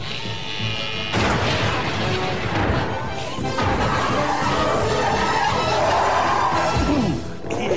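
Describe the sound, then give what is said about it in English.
A cartoon aircraft crash-lands in a loud, chaotic stretch of smashing, clattering and booming impacts that continues almost without a break. “Hang on, I've never landed before!”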